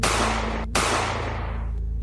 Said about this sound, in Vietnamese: Vương Tân Nhiên nói xong liền nổ súng.